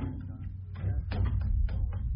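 Opening of a submarine's after escape hatch: uneven metallic creaks, scrapes and clanks in several bursts over a steady, heavy low hum.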